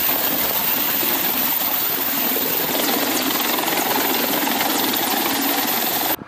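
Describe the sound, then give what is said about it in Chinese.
Steady, loud helicopter rotor and engine roar from transport helicopters flying low under attack-helicopter escort during a military air-assault training exercise. The dense noise holds constant for about six seconds, then cuts off abruptly. “借助武装直升机掩护，运输直升机采取低空隐蔽机动的方式到达机降点上空。”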